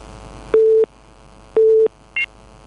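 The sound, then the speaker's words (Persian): Telephone busy tone after a caller's line was cut off: two steady, low-pitched tone pulses of equal length, followed by a short, higher beep. “آقای عبدالله از زابل تماس گرفتن قطع شد”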